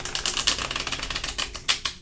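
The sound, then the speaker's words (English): Soft papery flicking of a tarot deck being shuffled, a quick run of light snaps and riffles with a few sharper bursts, fairly quiet. “Are we all shuffled up here? I can't shuffle as well as you.”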